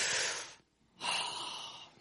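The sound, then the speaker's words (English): A deep breath taken aloud during a sermon: a long, airy breath sound, a short silent pause, then a second, longer, steadily fading breath, heard on its own without talk. “Everybody just take a deep breath with me.”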